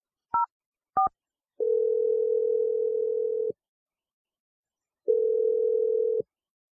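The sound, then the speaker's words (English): Two brief touch-tone dialing beeps as a phone number is dialed, followed by two long, steady, mid-pitched ringing tones separated by a pause, with no voices. “So let's just dial the number right now.”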